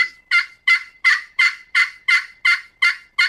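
A turkey call sounds a plain yelp imitating a turkey: ten even, raspy, high-pitched notes in a steady, quick cadence, loud and alone.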